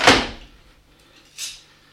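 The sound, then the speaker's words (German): A door is secured: an iron bar rests in the door frame and is clamped with two bolts, giving two clunks, a loud sharp one followed after a pause by a softer knock. “Hier diese Eisenschiene lagert in der Türfassung und muss mit den beiden Riegeln festgeklemmt werden.”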